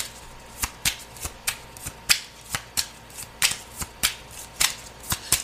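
Tarot cards are shuffled in a brisk, even rhythm, with many crisp snapping riffles following one another steadily without a pause.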